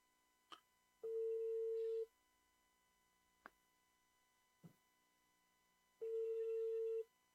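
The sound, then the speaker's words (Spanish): Ringing tone of an unanswered telephone call: two steady, mid-pitched tone bursts about a second long and roughly five seconds apart, with a few faint clicks between them against otherwise near silence. “no contesta el señor Vicente. Capaz está ocupado”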